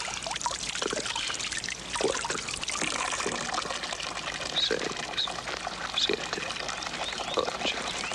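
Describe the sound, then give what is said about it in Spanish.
Water runs from a tap while someone washes their hands, a steady, hissing splash that continues evenly throughout with soft trickling variations. “se lava las manos bajo un grifo.”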